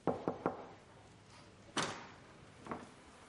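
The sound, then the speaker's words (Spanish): Knocking on a room door: three quick, light raps, then two more spaced-out thuds, the middle one the heaviest. The knocks are faint and sound alone, with no voices. “Tomá mira a Eve. Llama a la puerta.”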